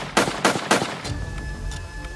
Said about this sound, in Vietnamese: hai trong ba tên chĩa súng rồi bắn liên tục nhiều phát vào anh.